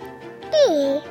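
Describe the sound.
A chubby baby babbles happily in an advertisement: one short, drawn-out cooing vocalization whose bright, clear pitch slides downward before trailing off over a faint background.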